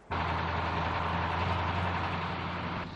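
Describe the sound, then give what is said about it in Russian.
An orange truck races along a Moscow avenue, producing a steady, loud engine drone with a low hum that holds evenly throughout and dips slightly at the very end. “Оранжевый грузовик мчит по одному из московских проспектов.”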